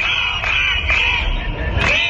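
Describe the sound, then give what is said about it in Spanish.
Loud crowd of protesting teachers in Catalonia shouting and chanting together, a dense, continuous wall of raised voices with a few louder swells over about two seconds. “Y este es el sonido de una nueva jornada de protestas de los profesores en Cataluña.”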